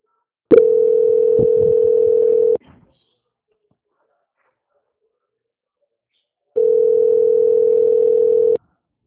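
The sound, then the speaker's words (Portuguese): Telephone tone while a call is transferred: two identical steady mid-pitched beeps, each about two seconds long, separated by roughly four seconds of silence, with no talk. “aguarde em linha, que vou transferir o contato para o controle de qualidade, que dará continuidade na sua contratação, tá? Tá bom, muito obrigada. Obrigada, Luci, só um minutinho. Transferência.”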